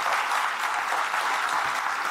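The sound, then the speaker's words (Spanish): Audience applause at a speaking event in Puebla, a dense, steady wash of clapping hands that holds an even level throughout, with no voices. “Le pido un aplauso para ella, porque ella es la que se lo merece.”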